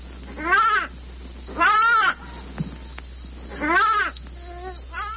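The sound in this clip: A goat bleats in three wavering, nasal calls, each under a second long, followed by a softer, shorter cry near the end. A low steady hum runs underneath throughout.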